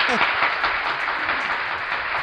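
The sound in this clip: An audience applauds a guest with dense, even clapping that carries on throughout, with a voice heard briefly at the start.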